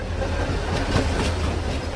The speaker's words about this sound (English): Standing on the platform at the abandoned train station, he watches as a noontime train passes within feet of the stored fuel cars.